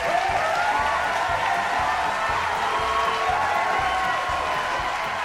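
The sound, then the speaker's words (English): Audience applause and cheering welcoming two comedians onto the stage at a live comedy show at the Gilded Balloon venue, a loud, steady wash of clapping throughout. “Ladies and gentlemen, and all they thems, put your hands together and give it up for the new Antor deck, Tom Hazelden and Joe Pike.”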